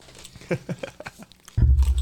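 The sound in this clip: Airline pretzels crunch in several sharp, crisp bites close up, followed by a louder low rumbling noise.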